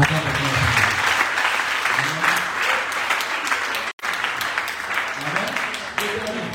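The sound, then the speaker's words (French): An audience applauds in church to acclaim the Lord: loud, dense, sustained clapping runs the whole way through, with voices mixed in and one brief break midway. “Si on acclame le Seigneur.”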